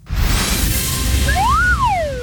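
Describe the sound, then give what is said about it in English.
A slide whistle plays one smooth glide that swoops up in pitch and then slides back down, a clear whistling tone over a steady low background noise. “You caught me practicing on my new slide whistle.”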